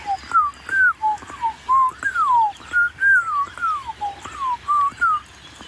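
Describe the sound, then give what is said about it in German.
Blackbirds singing across open landscape, a string of short fluty whistled phrases at mid pitch, each separated by brief pauses in an even, repeating rhythm, clear against a quiet background. “einen Klangteppich der Amseln in der Landschaft.”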